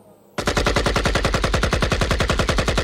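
Rapid automatic gunfire starts abruptly and runs on as a steady, evenly spaced stream of loud, sharp shots with no pause.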